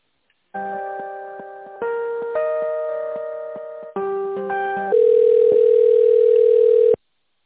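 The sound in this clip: Electronic telephone tones while a call is transferred: sustained chord-like tones held in several blocks that step between pitches, ending on a louder single steady tone.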